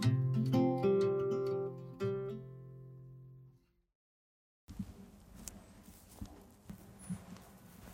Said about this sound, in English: So today you are walking with the pups and me up the dirt road that leads past our house and up to the top of the mountain where there is this big stretch of public land.